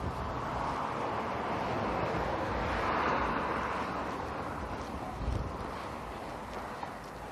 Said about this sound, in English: It's like 48, but the wind is blowing. There's a good breeze